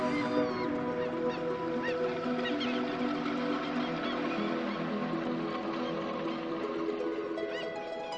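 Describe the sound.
Seabirds calling as they go after fish stunned by dolphins: many overlapping harsh, honking cries form a continuous, busy clamor for about eight seconds, with no speech.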